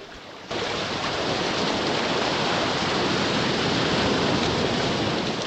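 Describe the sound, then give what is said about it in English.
Water rushes loudly and steadily as a submarine dives back into the ocean depths. The dense roar begins abruptly after a brief quiet moment and then holds constant. “The submarine dives back into the ocean's depths.”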